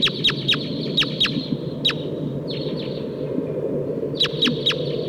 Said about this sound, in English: I hear wild crossbills here. It sounds like a Sitkensis type.